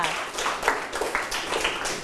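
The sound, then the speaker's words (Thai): Classmates applaud a student's answer in a class, a light, scattered clapping that stays moderate throughout while voices talk over it. “โอ้เยี่ยมมากเลยครับปรบมือให้กับเพื่อนค่ะ”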